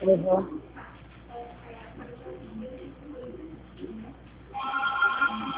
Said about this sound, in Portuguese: O povo tá ligando de novo.